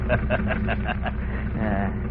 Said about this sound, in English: You blasted motor, you keep going.